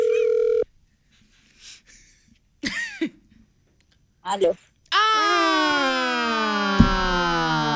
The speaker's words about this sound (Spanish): Marcamos. Ahí está marcando.